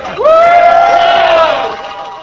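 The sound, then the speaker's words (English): Supporters cheering as Howard Dean arrives at a TV station: a single loud, drawn-out shout that rises sharply at the start, holds steady, then fades away. “When he pulled up the driveway, there were handshakes, laughter, and a cheer.”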